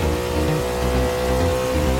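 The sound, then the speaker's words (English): A car engine revving hard, giving a loud, steady, buzzing drone rich in low harmonics that holds at a high level throughout, with no voices. “The thrill of rapid acceleration and a revved up engine working together to go fast.”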